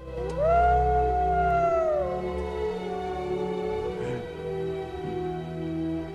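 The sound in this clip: Wolves howl on a hill: one long, clear howl rises and then falls in pitch over a steady low drone, followed by quieter, fainter tones.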